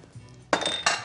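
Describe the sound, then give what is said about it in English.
Cheesy food is tipped into a ceramic baking dish, making two clattering impacts of utensil and food against the dish. “And we're gonna turn this into that baking dish. Okay, just the right amount.”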